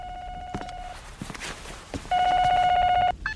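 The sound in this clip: A telephone rings twice with a steady electronic tone, each ring lasting about a second. Faint clicks and knocks fall in the pause between the rings.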